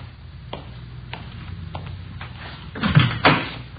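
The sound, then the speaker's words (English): A car door handle is raised and the door opened: a few light clicks, then two louder clunks close together at the end. “Now, will you Raise that handle on the other side so I can get in.”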